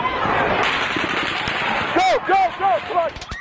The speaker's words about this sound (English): The AR-15 is not a fully automatic machine gun. It fires only one round with each pull of the trigger. But in Las Vegas, it sounded like a machine gun.